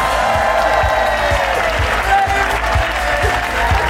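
Sustained audience applause at a live show as two news hosts are welcomed on stage, a dense, even roar of many hands clapping throughout with steady loudness.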